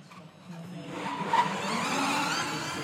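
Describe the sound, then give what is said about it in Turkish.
A racing car enters the pit lane on a punctured right rear tyre: a steady, broad whooshing roar that swells after a quieter start and holds level, with one brief louder burst in the middle. “lideri Pascal Wehrlein patlak sağ arka lastiğiyle pit alanına geliyor. Lastik değişimi gerçekleşecek.”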